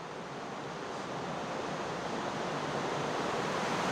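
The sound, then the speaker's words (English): Underground stream rushing through a cave chamber, a loud, steady roar of water that holds constant and unbroken throughout, with no voices over it. “It's quite loud. Yeah. So this is the first stream chamber.”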